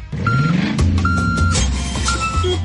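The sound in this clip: Delivery truck reversing beeps: a few steady, high electronic tones pulse at an uneven pace over a loud, rumbling engine.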